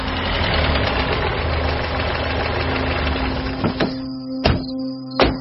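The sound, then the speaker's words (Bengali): A car engine idles as the car pulls up and stops, a steady low rumble with a throbbing tone that eases off toward the end. A few sharp clicks or knocks follow, and no voices are heard. “সুদর্শনকে নামিয়ে দিয়ে গাড়ি আরো কিছুটা এগোতেই কিরিটি মিশিরকে বললেন, এখানে এখানে এখানে ব্যাস, এখানে গাড়ি রাখো মিশির।”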